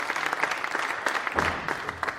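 A conference audience applauds a panel: brisk, continuous clapping from a crowd, moderately loud and steady throughout the short clip.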